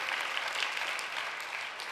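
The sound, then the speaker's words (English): A church audience clapping during a worship service: dense, continuous applause from many hands, steady and fairly loud throughout. “I know I've been telling you to clap, but let's clap again.”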